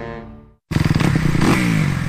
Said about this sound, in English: You know that sound. Every rider knows that sound. Is there a better sound in the world? And it only means one thing. It's time to ride. So rev up and get your ride ready at Sunrise Cycles in Norfolk right now.